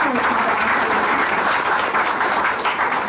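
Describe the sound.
Dense, steady applause from an audience at an association election speech, loud and continuous for the whole stretch with no breaks.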